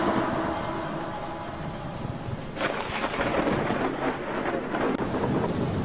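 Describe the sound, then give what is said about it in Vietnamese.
Thunder rumbles through a steady rainstorm downpour, swelling into a deep, broad roar partway through over the constant hiss of rain. “bà Cả Lương choàng tỉnh vì tiếng sét chói lòa”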